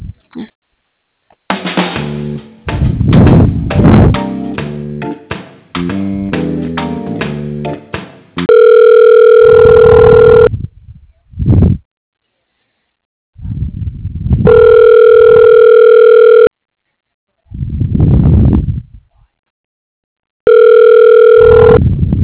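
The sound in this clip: Telephone line ringing while a call is transferred to an office extension: three long, steady buzzing ring tones separated by pauses, with the last one cut off, preceded by several seconds of other sound on the line.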